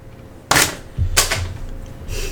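Pokémon trading cards are shuffled by hand in three crisp, papery bursts, each short and sharp, separated by quieter pauses with a low hum underneath.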